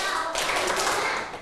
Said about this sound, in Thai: ปรบมือห้าครั้ง